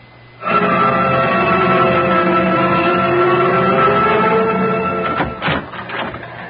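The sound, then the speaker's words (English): A teletype machine clatters: a steady mechanical hum-and-rattle starts abruptly and runs evenly, then breaks into a few separate bursts near the end. “I've been staring at that teletype machine out there until I can't see straight. Still no word.”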